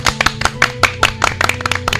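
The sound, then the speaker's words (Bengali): A group claps hands together at a Bengali folk music performance: many loud, distinct claps in a loose rhythm over a low, sustained musical drone. “বাহ, দুর্দান্ত, সবাই হাত তালি দাও।”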